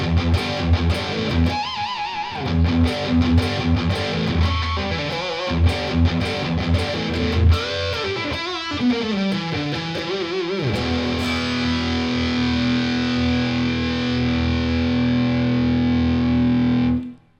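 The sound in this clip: Electric guitar through a low-noise overdrive pedal with drive and EQ set to the middle, giving a crunchy distorted tone; a run of picked notes and chords leads into a long sustained ringing chord that stops abruptly at the end.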